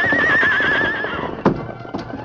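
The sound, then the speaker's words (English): A horse whinnies during a chase, giving a loud, wavering high-pitched neigh, followed by a few hoof thuds. “But Silver was more than a match for the horse Jess rode, and gradually closed the distance between them until the Lone Ranger rode alongside.”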